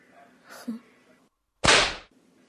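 One loud, sharp whip lash striking the bare skin of a back, a bright burst that fades quickly, preceded by quieter low rustling.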